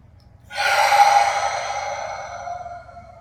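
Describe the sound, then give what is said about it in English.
A single deep breath taken during a guided breathing exercise, in through the nose and out through the mouth: a long, airy rush that swells quickly, holds, then fades away over a couple of seconds. “Nice and loud out in through the nose. Fill up, hold for count, exhale through the mouth. two more of those.”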